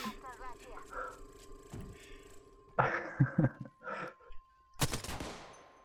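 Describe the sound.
Gunfire in the video game Apex Legends comes as a few sharp, loud bursts over a busy bed of game sounds and a steady electronic tone.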